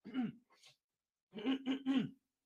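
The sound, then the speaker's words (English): Throat clearing: one short rasping clear, a brief pause, then three quick guttural pulses in a row, fairly quiet and with no talk over it. “had to clear the throat. Pardon me.”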